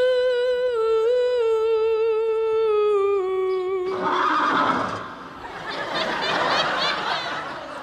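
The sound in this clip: A woman's voice imitates a horse's neigh: a steady sung note breaks into a loud, shaky, warbling whinny that lasts several seconds.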